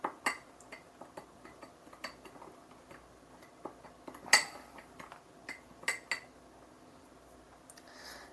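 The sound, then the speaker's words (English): Spoon clinking against a bowl while lightly stirring a quinoa mixture, with scattered faint taps and clicks and a few sharper knocks spread unevenly across the stretch. “I'm just going to lightly stir that.”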